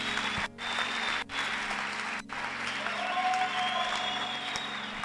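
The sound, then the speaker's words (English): Audience applause, dense steady clapping from a crowd that holds at an even loudness throughout, without any voices rising above it. “Clap for me.”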